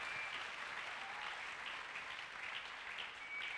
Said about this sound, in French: Est-ce que tu peux acclamer le Seigneur?